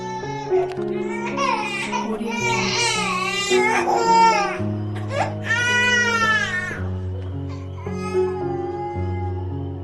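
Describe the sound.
A baby cries at home in repeated, long, high-pitched wailing bursts with short breaths between them while an adult voice speaks softly at times, loud and distressed throughout.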